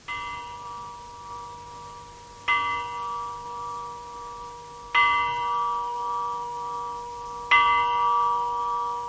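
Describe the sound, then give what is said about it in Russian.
A village bell in a mountain village in Georgia rings in the morning. Four evenly spaced strikes come about every two and a half seconds, each a bright metallic tone with long ringing overtones that carry into the next strike. “Это колокол моего села. Он звонит по утрам, возвещая, что скоро начало занятий в школе.”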